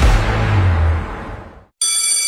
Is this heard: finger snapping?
no